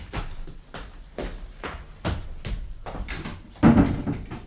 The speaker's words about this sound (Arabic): اقفل الباب وراك.